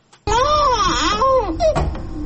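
A young child in Afghanistan, malnourished for about a year, crying: a loud, wavering wail whose pitch rises and falls, breaking into shorter strained sobbing cries.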